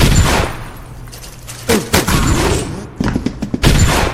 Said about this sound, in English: I can press R. Whoa, it's a rocket.